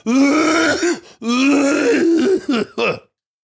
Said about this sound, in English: Performative coughing.